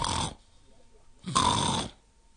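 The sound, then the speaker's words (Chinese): A male storyteller imitates snoring with his voice, giving two breathy, rasping snore sounds separated by a short pause, moderately quiet. “小雨墨坐在门槛上也装着打呼噜”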